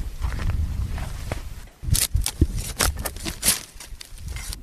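Footsteps climbing a steep slope where honeybush tea is being cut by hand, several uneven crunching steps that are loud and close, with brushy scraping between them.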